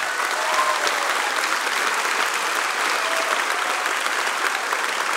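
Audience applause welcoming a comedian onto the stage: a steady, dense wash of clapping that stays at an even level the whole time.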